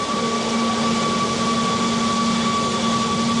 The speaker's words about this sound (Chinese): 现在充电桩你能听到一个明显启动的一个声音。